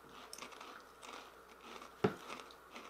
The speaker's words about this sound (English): Those are good. They are good. They are good. So, wow. But here's my only problem with them. Tastes like oil. They're over-fried potato chips.